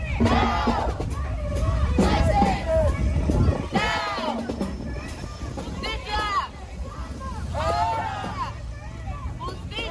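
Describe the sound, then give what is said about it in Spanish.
A crowd marches in an immigrant workers' May Day protest in Wisconsin. Loud shouts and chanting voices rise and fall over a constant babble of many people. “Aquí algunos sonidos de dicha marcha.”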